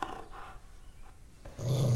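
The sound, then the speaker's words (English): A dog growls in low, rough bursts that thin out briefly, then swell into a louder, sustained rumble at the end. “He's a great dog, but he's a bigot.”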